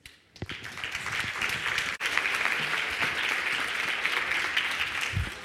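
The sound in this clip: An audience applauds to welcome a speaker to a talk on the future of humankind. The clapping swells in quickly after a brief quiet start, then holds as a dense, even, steady ovation to the end.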